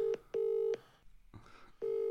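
Ringback tone of an outgoing mobile phone call on the EE network: steady, low electronic tone pulses in a double-ring pattern, then a long pause with faint rustling before the tone starts again.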